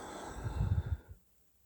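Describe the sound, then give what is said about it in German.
A single soft breath, low and breathy, swells for under a second and then stops, leaving near silence. It is quiet and has no talk over it. “Ja, und dann kommt ein Atemzug.”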